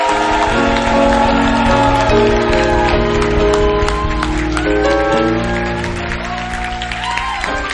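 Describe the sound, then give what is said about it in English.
A church audience claps along with loud music that holds sustained tones. The crowd clapping forms a dense texture that runs without a break from start to end. “Clap for them as they go. Church, wake up and clap.”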